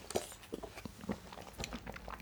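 Cashew nuts crunch and crackle between the teeth, many quick, crisp chewing bites in an uneven rhythm.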